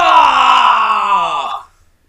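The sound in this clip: A single voice imitates the collective groan of a cinema audience as a film cuts to its credits. It is one loud, sustained groan lasting about a second and a half that slides downward in pitch before cutting off.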